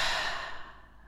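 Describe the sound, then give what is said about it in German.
A slow breath out through the mouth during a relaxation breathing exercise, a soft, airy sigh that fades away over about a second. “Und dann atme ein paar Mal durch die Nase ein, durch den Mund aus.”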